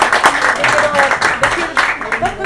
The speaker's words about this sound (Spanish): ¡Un aplauso de nuevo! Sí. ¡Una vez de nuevo! ¡Bravo!